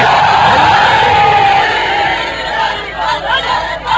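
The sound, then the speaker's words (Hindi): A large crowd shouts the Nara-e-Haidari slogan with full force, a loud, sustained roar of many voices. It holds steady, then breaks into ragged, fluctuating cries near the end. “दोनों हाथ बुलंद करके पूरी ताकत से नारा हैदरी।”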